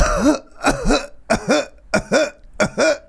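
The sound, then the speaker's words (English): A deliberate, staged cough: a rapid run of harsh, throaty, voiced coughs in regular bursts, loud and close together, with no talk between them. “Do you want me to cough?”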